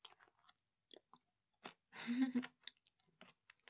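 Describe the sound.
Chewing on Japanese pickles: a scattering of short, crisp crunches and soft mouth clicks, with one louder, longer crunching burst partway through, all fairly quiet against silence.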